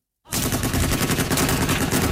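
Heavy machine guns mounted on pickup trucks fire in Yemen, a dense, loud, continuous rattle of rapid shots that starts abruptly after a brief silence and keeps going without pause.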